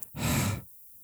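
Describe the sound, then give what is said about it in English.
A single deep breath, a loud airy rush that swells and lasts about half a second, then stops abruptly and leaves near silence. “Deep breath.”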